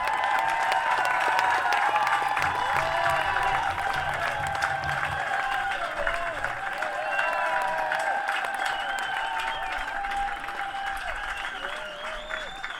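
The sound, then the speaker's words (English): Audience applause welcomes a musician onstage at a Beatles tribute concert. Dense, steady clapping goes on for about thirteen seconds and eases slightly toward the end. “please give them a huge round of applause”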